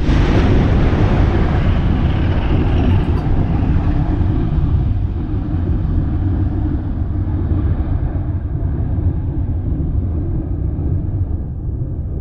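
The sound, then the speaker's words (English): Mount Yasur volcano on Tanna Island, Vanuatu, roars as it erupts: a loud, continuous deep rumble with broad hissing noise that holds steady and eases only slightly toward the end, with no voices. “Here's the answer to our GeoQuiz. The Mount Yasur volcano is located on Tana Island and is part of the Pacific Island nation of Vanuatu.”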